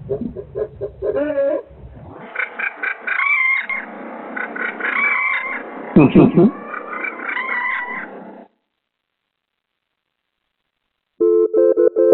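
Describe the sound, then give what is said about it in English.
A chicken clucks and crows inside a hotel room in Idaho Falls, with loud harmonic calls running almost without a break for about eight seconds. Silence follows, then another short burst of calls at the end. “There's a chicken here. There's a chicken. There's a chicken.”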